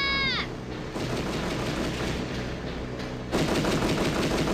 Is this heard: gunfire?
yes